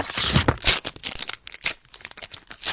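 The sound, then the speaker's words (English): Paper envelope being torn open, with rough ripping and crinkling in several uneven bursts, loud and with no voices. “That's way more envelope. We need more envelope noise.”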